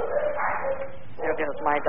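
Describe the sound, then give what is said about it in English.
A dog barks in a short burst of high, harmonic yelps and yips, fairly loud and steady over about two seconds, with a brief dip before the final sharper barks. “there goes my dog.”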